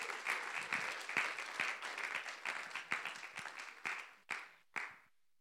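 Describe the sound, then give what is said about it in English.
Applause from a church audience welcoming a guest to the front: a dense run of clapping that thins out and ends with two separate claps before silence. “So let's put our hands and welcome Helen Coleman to come.”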